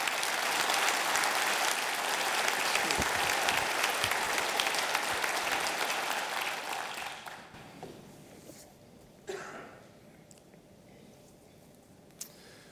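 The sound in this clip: Audience applause welcoming a guest speaker at Bethel Church. Dense, steady clapping that fades away over several seconds, followed by a few faint taps in near quiet.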